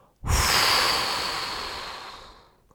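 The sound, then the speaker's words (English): A big breath drawn in and blown out through the mouth during a guided meditation: one long, loud, airy rush that starts abruptly and slowly fades, with no talk over it. “Big inhale. Exhale through your mouth, blowing yourself into your body.”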